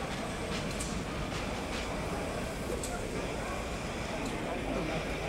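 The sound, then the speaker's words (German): Express train to Edinburgh pulling out of a station: a steady, loud rolling rumble with faint rail clacks and brief metallic ticks throughout. “Bitte einsteigen und die Türen schließen. Der Zug fährt ab.”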